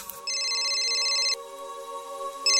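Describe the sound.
A telephone ringing tone sounds while a call is placed to a friend. Steady electronic tones carry a higher, pulsing chime that stops and then starts again, with no one talking.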